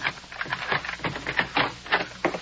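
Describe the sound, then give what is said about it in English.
Keys on a ring jangle and click as one is worked into a door lock, a busy run of many quick metallic taps and rattles without a break. “There's an extra one on the shelf. I couldn't have lost the whole ring of keys. This will let us in.”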